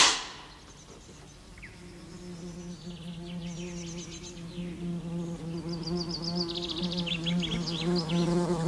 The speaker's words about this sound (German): Weg da! Es ist Wespenhochsaison.